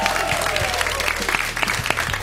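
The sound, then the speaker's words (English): Applause from a live studio audience at the WNYC Green Space during a six-month anniversary show, loud and dense clapping that holds steady for the whole stretch. “Thanks for joining me today to celebrate our six-month anniversary show. We got a live audience.”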